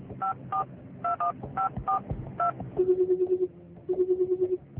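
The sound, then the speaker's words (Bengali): Telephone keypad tones as a number is dialed from a phone shop in a market: seven short, clear beeps in uneven rhythm, then two bursts of rapidly pulsing ringback tone. “পরের দিন সকালে বাজারের একটা ফোনের দোকান থেকে phone করলো সে হাসপাতালে।”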